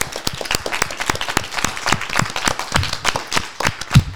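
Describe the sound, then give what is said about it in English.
An audience at a Cumberland School of Law event at Samford University gives a round of applause: steady, brisk clapping continues throughout on its own, with no talk. “So, how about a big hand?”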